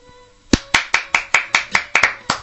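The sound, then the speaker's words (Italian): Hands clapping in applause: after a quiet opening, ten sharp, loud claps follow in a steady, even rhythm, each a crisp isolated slap with a short tail, heard alone without talk. “Guarda, un applauso.”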